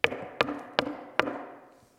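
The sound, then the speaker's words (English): Four sharp knocks on a door, evenly spaced and each fading quickly, heard alone with no talking. “Knock on the door.”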